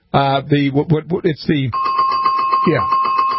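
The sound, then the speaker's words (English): A buzzer-like bell sounds as a steady, sustained electronic tone after a stretch of talk, with voices continuing over it until the end. “Don't want to alarm you, but if you hear this bell”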